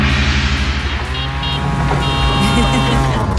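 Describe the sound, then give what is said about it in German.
Tuk-tuk auto rickshaw driving, its engine a loud, steady buzzing drone with layered harmonic whine that holds throughout. “Wie könnte so ein Tuk-Tuk klingen? Wahrscheinlich so.”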